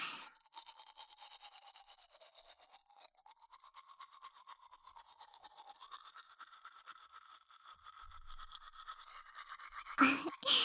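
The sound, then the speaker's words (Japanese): Gentle brushing of teeth with a toothbrush: a faint, rapid, rhythmic scrubbing of soft strokes that continues steadily throughout, with no voices. “優しく優しく、歯ブラシの毛先が潰れないように、シャカシャカ。”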